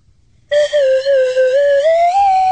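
A whistle blown in one sustained, clear tone of about two seconds with strong overtones, steady at first and then rising slightly in pitch near the end, heard alone without talk.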